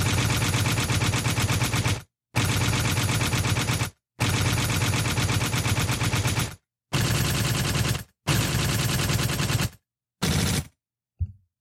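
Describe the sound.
Automatic gunfire used as a sound effect: a series of loud, dense rapid-fire bursts separated by short gaps, the final bursts shorter and clipped.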